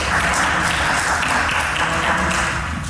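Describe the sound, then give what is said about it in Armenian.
Applause in parliament after lawmakers elect a judge to the criminal chamber of the court of cassation: a thick, steady patter of many hands clapping at a constant, fairly loud level. “Դատելով Արմեն Դանելյանի դեմքի արտահայտությունից ընտրությունն ու ծափահարությունները նրան այնքան էլ չոգևորեցին։”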